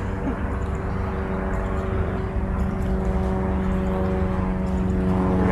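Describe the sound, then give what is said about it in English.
Helicopters flying overhead make a continuous, steady low drone with a tonal engine hum that holds an even loudness from start to finish. “Helicopters.”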